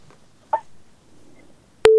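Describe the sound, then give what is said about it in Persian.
A telephone busy tone on a radio call-in line after a listener's call dropped: quiet line noise and one faint click, then a loud, steady tone cuts in abruptly at the very end. “تماسی شنونده ما هم قطع شد”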